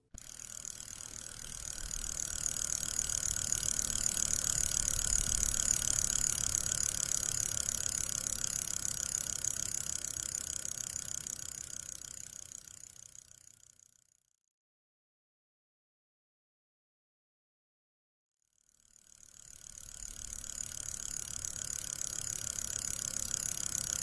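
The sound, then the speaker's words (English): Spinning wheel turning while wool is spun, a steady mechanical whirring with a ratchet-like clicking. It fades out into silence for a few seconds, then fades back in and runs on evenly. “You don't spin badly. Well, I shan't need the spinning wheel again.”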